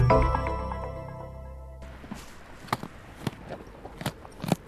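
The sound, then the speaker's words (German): Two circus camels munch carrots, pulling them between their hairy lips, with crisp, irregular crunches and crackles that come and go as they chew. “Eine Mohrrübe nach der anderen ziehen die beiden Kamele mit ihren haarigen Lippen zwischen die Zähne.”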